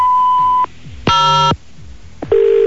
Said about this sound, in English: Please dial zero at the sound of the tone.